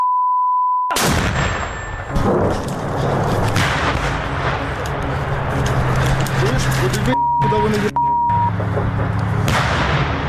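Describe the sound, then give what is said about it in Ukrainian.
A Ukrainian tank fires on Russian army positions during a battle, a loud, continuous roar of crackling, thudding gunfire with short electronic beeps at the start and again near the end. “Зараз український танк валить по позиціях російської армії, де намагалися підбити. Бій зав'язався на фоні. Чуєте, стрілець.”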